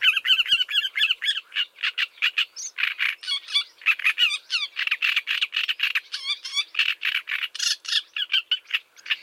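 Song of a great reed warbler: harsh, grating, croak-like phrases mixed with rapid chattering and squeaky notes, repeated loudly and almost without pause, with no other sound.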